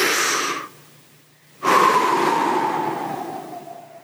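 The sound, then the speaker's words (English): A deep, slow belly breath, drawn while pushing out the lower belly, opens with a short airy rush, goes quiet briefly, then gives way to a longer, steady breath that slowly fades. “We're going to take a deep breath, and what we're going to try and do is push out the lowest part of our belly, like we're as pregnant as we can be.”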